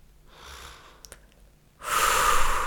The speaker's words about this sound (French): Respire profondément